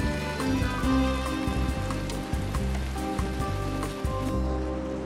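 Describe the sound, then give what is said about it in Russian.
A very heavy downpour of rain makes a dense, continuous hiss and patter that stays loud and steady throughout, with no pauses. “Дождь. Я буду ее искать. Филипп вышел на улицу. Очень сильный ливень.”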